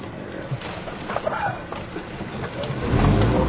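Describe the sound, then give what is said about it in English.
A car engine revs as the gas pedal is pressed. A low rumble swells noticeably louder in the final second, while people talk over it inside the vehicle. “Whoa, dude, you're pressing the gas, man.”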